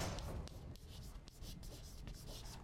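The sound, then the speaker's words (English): Someone writes something down, producing many quick scratchy strokes in an uneven rhythm with brief pauses between them, faint and with no talk. “I like to write this down”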